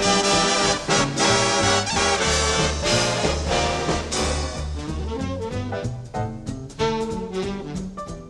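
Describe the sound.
A full big band plays a brassy jazz arrangement, with brass and saxophone sections in dense ensemble harmony over a walking low end. The playing stays loud and steady throughout, with no voices.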